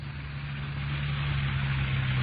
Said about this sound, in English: Ben and I drove over to 1543 East Workman Street to check out the husband of the murdered woman.